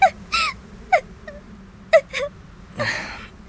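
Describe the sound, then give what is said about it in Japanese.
Crying: several short, broken sobs and whimpering gasps come in separate bursts with brief silences between, ending in a longer breathy sob. “泣くなよ。”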